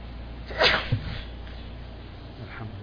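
A single sharp human sneeze bursts out loudly, then fades into a quiet, steady background hiss.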